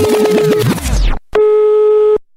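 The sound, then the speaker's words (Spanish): Telephone tone from a phone left off the hook: one steady electronic tone holds for under a second, loud and alone, preceded by a brief, busier burst of other sound. “la Q tenemos un teléfono que siempre tenemos descolgado para que todo el público piense que siempre nos están llamando.”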